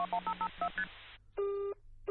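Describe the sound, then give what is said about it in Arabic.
Telephone keypad tones beep in a quick run of short, evenly spaced presses as a number is dialed to call someone, followed after a brief pause by a single longer steady tone on the line. “فكره مدهشه، خليني اتصل بعفاف واقول لها. بسرعه كده.”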